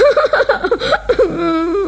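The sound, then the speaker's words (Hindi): A voice imitates crying, loud and alone: a rapid run of short, choppy sobbing whimpers, then a longer drawn-out wailing tone at the end. “दोस्तों, क्या तुम भोलू की तरह रोकर दिखा सकते हो? हाँ, ऐसे। इस तरह भोलू काफी देर तक रोता रहा,”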